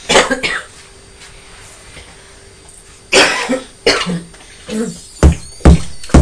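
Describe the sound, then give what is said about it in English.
A young child coughs in imitation of their mother's cough. Short, rough coughs come in separate bursts, a few grouped near the start and more spread through the second half, with quiet gaps between them. “Poor mummy has a cough, hasn't she? Oh, you're copying mummy with a cough.”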